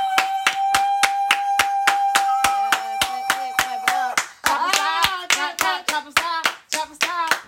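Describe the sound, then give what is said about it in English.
An audience claps hands in a sharp, evenly spaced rhythm, with many crisp claps on a steady beat. A sustained tone runs beneath the first half, then excited vocal whoops rise between the claps. “clap it up.”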